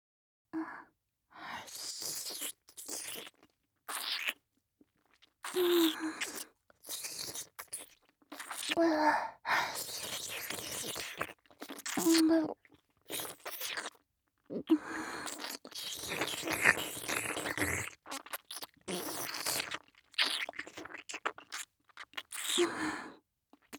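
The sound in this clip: Wet licking of a tongue along a neck: many short moist smacks and slurps in an irregular rhythm, broken by brief pauses and occasional soft sighs.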